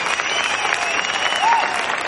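Applause from a university audience as a student finalist walks to the stage, a dense, steady clapping that stays loud and even for the whole short stretch.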